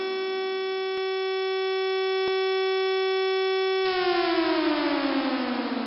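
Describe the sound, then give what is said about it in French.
A civil defence siren sounds the end of an alert: a loud, steady, single-pitched wail rich in overtones, with two brief clicks early on, then the pitch slides steadily downward as the siren winds down. “L'alerte est terminée dès que j'entends un nouveau signal des sirènes.”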